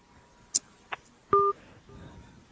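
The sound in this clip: Telephone dialing while a call is placed: a couple of faint clicks, then one short, clear dial-pad beep, over low background hiss.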